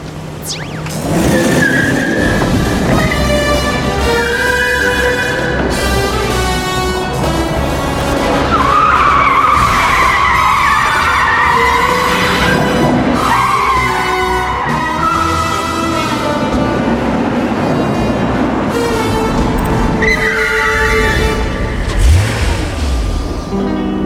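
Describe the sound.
Tires squeal in long, wavering skids as a spy-film car, steered from a handheld control pad, is driven hard, with a revving engine underneath throughout.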